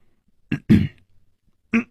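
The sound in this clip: A man coughs and clears his throat: two short, gruff bursts close together, then a third brief cough after a pause, each sharp and fairly loud against near silence, no speech.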